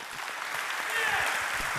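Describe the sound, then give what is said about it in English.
An audience applauds and cheers to welcome a speaker bringing a message from God's word, a short, dense, steady burst of clapping. “put your hands together, get loud, give a warm welcome”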